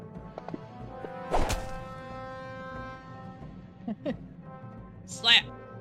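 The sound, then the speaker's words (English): A slap attack from a video game lands as a sharp, punchy whack amid steady talk from players. “Slap. All right, you slap him.”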